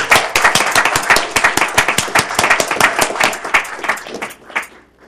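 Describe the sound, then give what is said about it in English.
Applause for the Timbers: dense, steady clapping from an audience holds strong for several seconds, then thins out and fades away at the end. “Let's hear it for the Timbers.”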